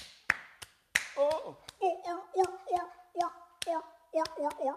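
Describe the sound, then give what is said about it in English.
A voice imitates a seal, giving many short, rhythmic barking calls mixed with sharp hand claps or slaps, most clearly at the start. “That's my seal impression. Yeah, seal impression.”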